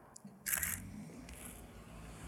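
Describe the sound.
Camera shutter clicks as a photo is taken of a Caravan and a HiAce parked side by side and buried in snow: one bright, crisp mechanical snap stands out, followed by a fainter click over a low steady hiss.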